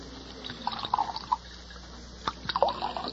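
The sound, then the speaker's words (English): A drink is poured from a bottle into a glass at a bar: faint gurgling, dripping and splashing in small uneven bursts over a low steady hum. “Set out a couple of glasses in that bottle you've got your hand on. We'll pour our own. Yes. Yeah, I'll pour yours,”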